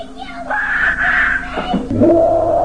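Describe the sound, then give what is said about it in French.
An excited child screams while unwrapping a Nintendo 64 Christmas present. The scream is a loud, sustained, high-pitched cry that drops into a lower wail, over steady background noise. “C'est un enfant en train de déballer ses cadeaux à Noël. Aïe. Il reçoit un Nintendo 64 puis il est tellement excité. La petite fille aussi. Attends, il faut l'entendre crier.”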